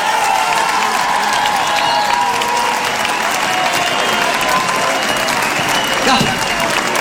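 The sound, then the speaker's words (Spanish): Loud, sustained audience applause roars without a break, many hands clapping together with crowd noise mixed in and an even level from start to finish. “¡Hermoso! ¡Aplauso para ellos! ¡Maravilloso!”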